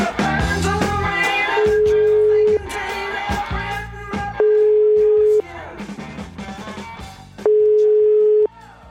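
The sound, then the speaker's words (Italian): An outgoing telephone call ringing to a man in Pompeii: three long, steady, mid-pitched ringback tones, each about a second long, separated by roughly two-second stretches of busy background sound. “Io proverei a chiamarlo sto Malafronte, a Pompei, Malafronte, proviamo, vai, forza.”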